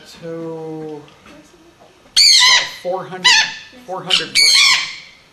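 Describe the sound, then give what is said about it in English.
Harsh, raspy squawks from a Patagonian conure, the largest conure, a female weighing about 400 grams. Several loud, grating bursts come in irregular succession after a quieter opening. “But this is the largest of the conure family, the Patagonian.”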